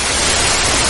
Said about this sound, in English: the sound stopped and it was replaced by another type of sound, a hissing sound, which is not a sound relating to life. It's the sound of death, if you like.